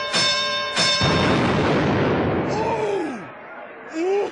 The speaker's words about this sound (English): Wait a minute, what is that? It's a hand grenade. Get away from it.